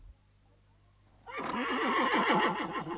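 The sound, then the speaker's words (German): A tethered horse grazing at the edge of a plain gives a loud, quavering whinny that breaks in after a moment of near-quiet and wavers rapidly up and down. “Jetzt stieg er wieder vom Pferde und ließ es grasen, machte es aber sorgfältig fest.”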